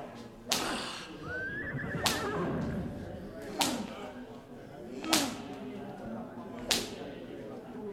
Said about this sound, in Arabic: الخيول جريت.